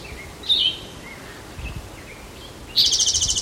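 A woodpecker calls: one short, high note early on, then a rapid run of many sharp, repeated high notes near the end, with faint rustling underneath.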